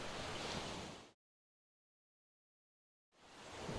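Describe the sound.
Sea waves rush and splash as people wade out for a paddle at the beach, a loud broad wash that cuts to silence for about two seconds before surging back.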